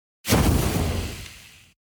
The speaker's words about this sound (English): I must say, the smoke bomb use has diminishing returns.